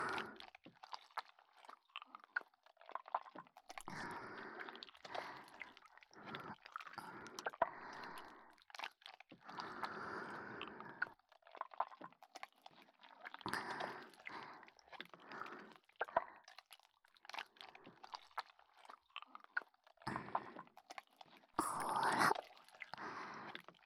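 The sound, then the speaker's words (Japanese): Lotion being mixed: quiet, wet squelching and sticky squishing sounds that come in irregular bursts, with soft whispering at times. “ローションを混ぜる音は気持ちいいでしょう。”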